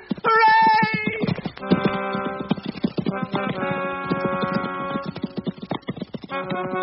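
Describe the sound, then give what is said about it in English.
Galloping horses drum out a rapid, rhythmic beat of hooves over music in an Arthurian tale of riding to Camelot. “Let's gallop.”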